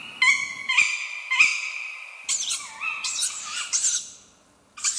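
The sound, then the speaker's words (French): Female and male tawny owls call at night in the Rambouillet forest: a few shrill, harmonic cries with wavering, sweeping pitch follow one another in quick succession, with no talking. “La femelle et le mâle chouette ulotte discutant la nuit au fond des bois.”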